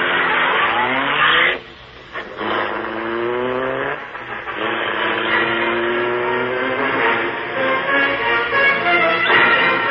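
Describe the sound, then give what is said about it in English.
The engine of a gleaming car, the Black Beauty, roars to life and speeds away in a loud, sustained whining roar. It drops briefly early on, then surges again and holds strong. “The great car roared into life. A section of the wall in front raised automatically, then closed as the gleaming Black Beauty sped into the darkness.”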